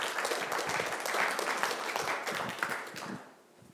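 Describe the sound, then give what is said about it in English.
Audience applause welcoming a speaker after a morning prayer: brisk, fairly faint clapping from a gathered crowd that holds steady, then fades away in the final second. “Would you put your hands together, please, this morning, and welcome Trevor as he comes.”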